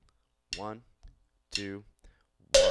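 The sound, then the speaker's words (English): A voice counts two short syllables, then a single sharp metronome click sounds, the first beat of a 4-4 bar at 120 beats per minute. “For starters, it can be the first beat of every bar of 4-4 at 120 beats per minute. That would sound like this.”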